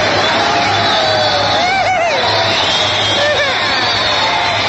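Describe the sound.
A studio audience cheering and whooping in a loud, continuous wash of crowd noise, with a few high whistling whoops rising above it.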